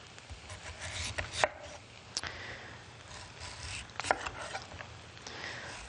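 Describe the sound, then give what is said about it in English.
A knife slices thinly through unpeeled raw beetroot, cutting all the way through: a few faint, crisp cuts and light scrapes over a quiet background. “So again, I'm not peeling it, just cutting it through and try and go all the way through and not get too many kind of half moon pieces.”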